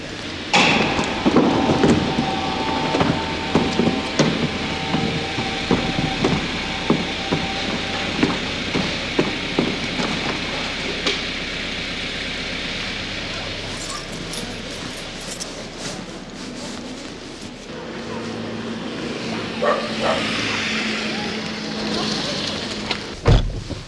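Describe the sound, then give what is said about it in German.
A car drives through an underground parking garage on a rainy day. A loud, steady rumble carries repeated sharp thumps and clatter, with voices at times. “Derzeit in der Tiefgarage. Wir fahren wieder zurück in die heimatlichen Gefilde.”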